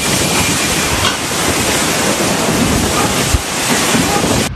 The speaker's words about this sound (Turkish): Fırtına hala şiddetli devam ediyor.